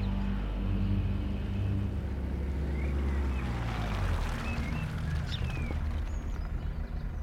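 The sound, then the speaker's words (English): A military transport vehicle passes with a deep, steady engine rumble that dominates throughout, with faint higher rattles and whines above it. “Damn it. A military transport. Quickly, hide behind the hedge at the crest of the hill.”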